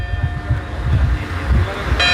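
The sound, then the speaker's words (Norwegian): Church bells ring from a village church in the hills of Andalusia to warn residents of a wildfire, with sustained metallic ringing tones held over loud, continuous low rumbling noise. “Fra kirken i Bedar ringte hun med klokkene for å varsle andre.”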